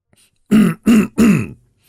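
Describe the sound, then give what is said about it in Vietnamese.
A plump village chief clears his throat in three loud, rough, low bursts in quick succession, with no talk around them. “ông ta hắng giọng”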